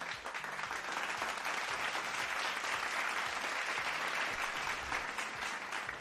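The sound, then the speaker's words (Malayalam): Audience applause after a folk song performance, a quiet but steady, even patter of many hands clapping throughout. “അപ്പൊ അത് അവർ നല്ലൊരു കൈയടി.”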